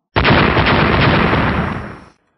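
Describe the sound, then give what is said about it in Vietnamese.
An explosion effect for an audiobook, as three magical artifacts blast against a grey cloud: one loud, dense roaring burst that starts abruptly, holds for about two seconds and cuts off. “Ba kiện tiên khí va chạm một cái vào cái đám mây xám kia, lập tức vỡ ra, hóa thành ba chùm sáng, một ngân hai hắc.”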